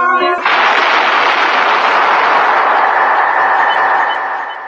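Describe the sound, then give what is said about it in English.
A single loud gunshot in a radio drama: a sharp crack at the start, then a long, sustained roar of noise that slowly fades away at the end. “That was the shot that killed Harry Lime.”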